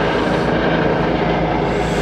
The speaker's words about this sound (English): It's just this helicopter that's slightly anomalous, slightly